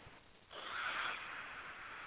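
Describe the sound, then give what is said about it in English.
A deep breath drawn in, a soft, breathy rush that swells after half a second and holds steady for about a second and a half, faint and alone. “Take a deep breath in.”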